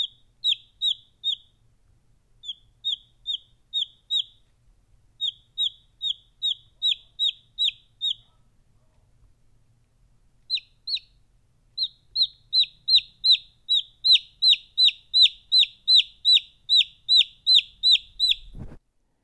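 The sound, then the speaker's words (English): A young chick left alone in a garage peeps loudly: many sharp, high peeps come in quick, even runs, then pause briefly before a faster, more insistent series. “So she left it alone in the garage. And every time I'd step in, he or she would start peeping like crazy. Here's an example.”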